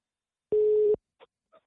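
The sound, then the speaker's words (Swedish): A telephone call being placed: one short, steady mid-pitched tone, then two faint brief blips in otherwise silent air. “Vi ska ta och ringa upp honom för att ställa lite frågor”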